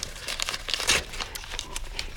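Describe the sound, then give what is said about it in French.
An envelope is torn open with a quick flurry of paper crinkling and ripping, short sharp rustles following one another, fairly quiet, with no voices. “Oh, une enveloppe! Encore une enveloppe! Vite, ouvre!”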